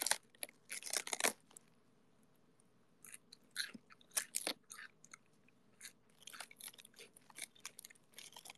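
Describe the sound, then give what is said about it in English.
Crisp crunching and chewing of fresh lettuce, with close, bright bites and wet crackles in irregular clusters separated by short quiet pauses, no voices. “About this whole lettuce eating ASMR endurance stream.”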